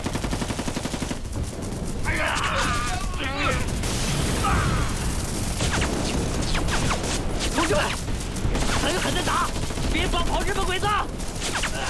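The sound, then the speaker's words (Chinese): A dense volley of gunfire from soldiers opening fire on an ambush in a wartime battle scene: loud, overlapping shots that pour out almost without a break for about ten seconds, with shouting voices mixed into the din. “果然有埋伏，全体射击！瞄准日本鬼子，给我打！”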